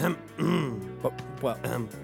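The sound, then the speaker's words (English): Throat clearing by a man, a series of about four guttural, voiced grunting bursts over two seconds, rough and low with a short pause between the first and later sounds. “Do you have something in your throat? I do, actually.”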